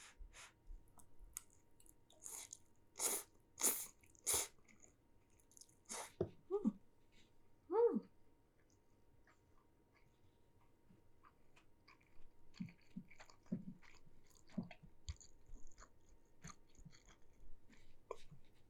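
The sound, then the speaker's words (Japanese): Chewing and biting sounds of someone eating pasta made with buckwheat flour, with many soft, irregular crunches and clicks. A few sharper bursts come early on, then steady, quiet mouth noises follow, with no talking. “蕎麦粉を使ったパスタっていうことで、そうはならないよね。でもいただきます。”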